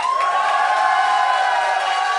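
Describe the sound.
Audience at a live comedy show cheering and whooping while voting by applause on a hat set on fire on a Weber grill. A steady, loud roar of many voices holds for about two seconds.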